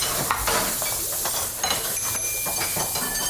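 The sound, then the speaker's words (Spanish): Food sizzles and is stirred in a Navarrese kitchen, a steady hiss of frying with scraping and occasional light clinks of utensils against pans. “Son las cocinas donde se gesta la gastronomía navarra”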